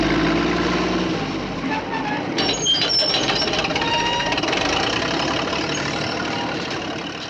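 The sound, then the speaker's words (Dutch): Heavy engine rumble and clatter of a bulldozer driving into a garden, a steady, dense mechanical noise that stays loud and even for several seconds before easing slightly at the end. “De volgende dag rijdt een bulldozer Donald's tuin in.”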